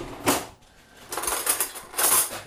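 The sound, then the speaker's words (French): A knife and fork clink as they are laid on a table over a green tablecloth, giving a few short metallic clatters with brief gaps between them. “Alors, couteau fourchette? Couteau, oui, après fourchette.”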